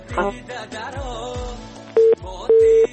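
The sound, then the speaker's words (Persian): Telephone disconnect tone after a phone-in call to a radio show drops: two steady, mid-pitched electronic beeps, the second longer, follow a softer, busier stretch of sound. “متاسفانه که تماس آقای غفوری قطع شد.”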